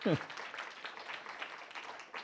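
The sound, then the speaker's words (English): A round of applause from the audience for the storytellers at a storytelling event in the East Lansing Public Library, fairly faint, with steady scattered clapping throughout. “How about one collective, since everything belongs to everybody, one collective round of applause for all of our intrepid storytellers.”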